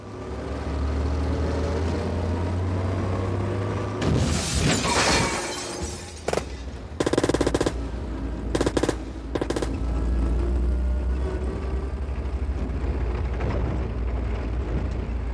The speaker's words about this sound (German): Tut mir leid um deinen Wagen. Ich musste ihn rammen.